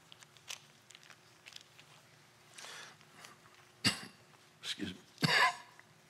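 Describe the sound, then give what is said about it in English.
Coughing and gagging from a man: after a quiet stretch with faint small noises, a few harsh, raspy coughing bursts come in the second half, the last one longest and loudest. “Excuse me while I gag in your ears.”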